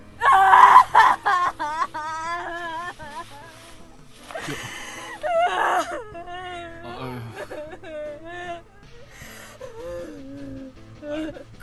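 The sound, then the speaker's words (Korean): A baby cries and wails in a drama scene, starting with loud, strained bursts and then settling into a long, wavering, sobbing cry that is steadier and softer toward the end. “그만 울어요. 아 목도 다 쉬겠네.”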